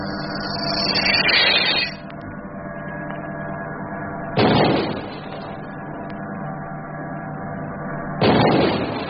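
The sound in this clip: Torpedoes are fired from a submarine: three loud, rushing whooshes burst out at roughly even intervals over a constant low mechanical hum.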